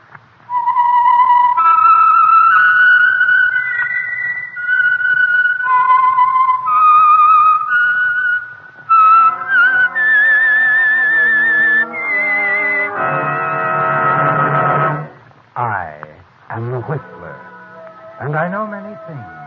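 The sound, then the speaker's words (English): A whistled signature tune identifying a radio program: a clear solo whistle carries a wavering melody of sustained high notes, followed by a brief burst of fuller music with a few closing notes. “for Sunday evening listening pleasure, the signal to listen for is this whistle that identifies the Signal Oil Program, The Whistler.”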